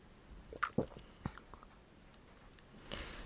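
Chewing on a snack while tasting an alcoholic drink: a few crisp, short bites and crunches close together early on, then quiet chewing and a brief louder rustle near the end.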